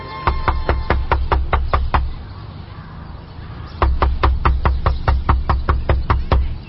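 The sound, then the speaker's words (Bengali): Rapid knocking on a balcony door comes in two runs of many quick, evenly spaced sharp raps. A pause of about two seconds separates the runs, and a low steady hum continues underneath. “হঠাৎ বারান্দার তাটা knock করার শব্দ।”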